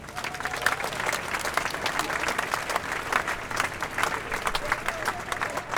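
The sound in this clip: Steady, continuous audience applause at a Gaza demonstration on the Dam welcomes a speaker, a dense even patter that holds at a moderate level throughout, with no voices.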